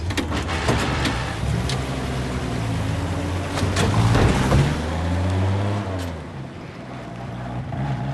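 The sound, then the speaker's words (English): Pickup truck driving past on a road, a steady droning engine hum with strong low harmonics that holds for several seconds, then drops in pitch and fades toward the end. “Ennis pauses as Jack drives past him, then continues down the road.”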